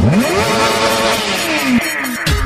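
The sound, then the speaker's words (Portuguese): A car engine revving, its pitch climbing sharply at the start, then dipping and rising again. The roar stays loud and continuous through the short burst. “Acelera o motor do carro.”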